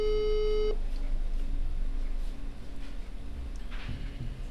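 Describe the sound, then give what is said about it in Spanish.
A telephone tone sounds during a call to someone who does not answer: one steady beep of under a second at the start, followed by a low, constant background hum. “Ahí lo estamos llamando, a ver si nos atiende. No nos estaría atendiendo”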